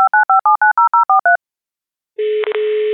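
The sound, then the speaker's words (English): Telephone keypad tones beep nine times in a quick, even run while a guest is dialed in. After a short silence, a steady line tone follows and breaks briefly twice. “So without further ado, let's go ahead and dial her in.”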